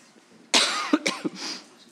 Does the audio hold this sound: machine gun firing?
no